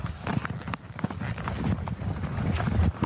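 A horse trots under a rider, its hoof beats falling in a quick, regular rhythm over a constant rush of wind noise on the microphone.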